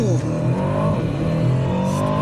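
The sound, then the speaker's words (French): A car with a 707-horsepower engine accelerates hard from a launch-control start, a loud, steady engine roar with rising revs and a faint tire squeal, no talk over it. “Pour ça, je te propose qu'on fasse un petit launch control. Bon juge de paix, ouais. On va tester ça tout de suite. Allez, pied sur le frein, pied sur l'accélérateur.”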